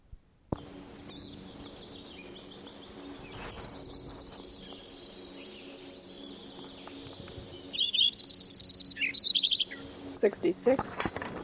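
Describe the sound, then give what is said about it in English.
Lincoln's sparrow singing. After a long quiet stretch with only faint chirps, a loud, rapid, bubbling trilled song bursts out, followed by a few short separate chirps. “Lincoln Sparrow number 7, continued from last tape.”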